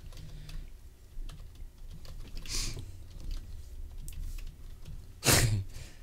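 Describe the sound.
Typing on a computer keyboard during an online search for beer brewing kits: faint, quick, irregular clicks run throughout, with one sharper, louder burst near the end.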